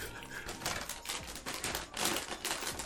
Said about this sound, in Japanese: ガサガサがまたすごい音するんだ